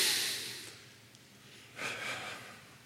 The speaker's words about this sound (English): Everybody do this with me, because I need to do it myself. Everybody take a deep breath.